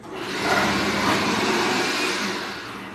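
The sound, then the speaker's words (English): Potatoes being sliced produce a continuous, loud whirring grind that swells in the first half second, holds steady, and eases slightly toward the end. “It sliced it really nice. She's slicing potatoes.”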